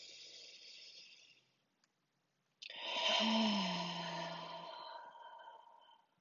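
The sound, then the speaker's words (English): Deep breaths drawn in during a guided breathing exercise: a softer airy breath, a brief silence, then a longer, louder rushing breath that swells and slowly fades away. “Let's have three deep, big breaths, you guys. So inhale.”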